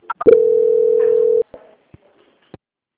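A steady single-pitch telephone tone sounds for about a second while a phone call is being transferred. A few faint clicks follow.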